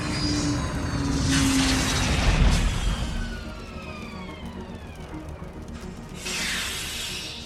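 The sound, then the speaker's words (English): A starship landing with its landing gear coming out: a loud, steady mechanical roar with whining tones sliding downward through the middle, and bursts of hissing at the start, near the middle and near the end. “As the starship lands, you can hear the landing gears coming out”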